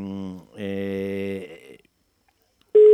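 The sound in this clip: A telephone rings with two sustained, buzzy electronic ring tones, the second longer. A silence follows, then a loud new tone begins at the very end.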